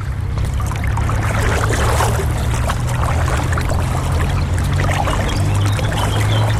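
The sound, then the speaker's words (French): Water sloshing and splashing as someone wades on foot along a normally dry path now flooded, a dense, continuous wash of noise over a steady low rumble, with no pauses and no voices. “on commence déjà à marcher dans l'eau. D'habitude, bah ça c'est un chemin qui est tout sec”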